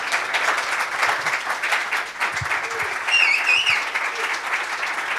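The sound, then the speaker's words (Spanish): Audience applause closes a talk on sound restoration. Dense, steady clapping fills the whole stretch at an even, fairly loud level, with no talk over it. “Se viene el segundo aplauso para Pedro”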